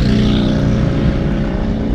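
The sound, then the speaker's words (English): A motorcycle engine holds a loud, steady drone with a deep, even hum and no clear change in pitch. “it's a motorcycle.”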